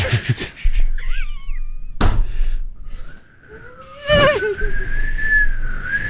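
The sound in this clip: A person half-whistles to imitate wind through a draughty hallway: airy, wavering whistled tones, first a short warbling burst, then a longer sustained note that grows louder, with a few dull knocking thumps in between.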